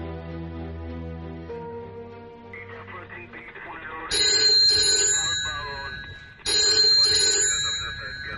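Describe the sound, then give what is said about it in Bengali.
A desk telephone rings in two long bursts of bright, metallic bell tone that come in after a stretch of music, which fades away beneath the ringing. “Shivani টেবিলের ফোনটা দুপুরের দিকে বেজে উঠল।”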